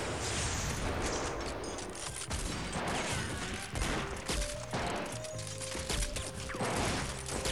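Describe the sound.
Sustained gunfire in a German radio play, a dense, continuous barrage of shots and crashes at steady high loudness throughout, with no voices.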